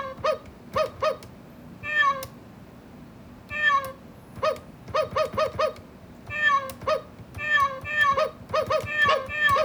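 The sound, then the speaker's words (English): A sound toy plays a dog and cat fight as many short, high, harmonic meowing cries in quick bursts and irregular clusters, with brief gaps between them. “So you can have like a dog and a cat fight.”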